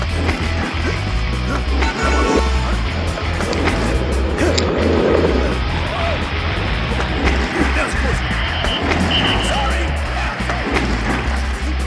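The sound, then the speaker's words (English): Skateboard wheels rolling in a loud, continuous rumble for an ornament delivery made by skateboard, with scattered knocks and clatters over the steady grinding noise. “they don't use cars. That's so last week. Ornaments on Wheels comes to you via skateboard.”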